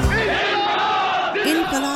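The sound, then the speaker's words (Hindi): Crowd shouting "Zindabad" victory slogans celebrating an election win: loud, overlapping voices chant and bellow throughout, with strong voiced shouts rising out of the crowd. “जिंदाबाद के नारों के बीच इतराती मालिनी घर पहुंची”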